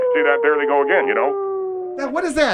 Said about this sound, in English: That is the sound of a wolf pack that was... Is that the same wolf pack that was up there the other night?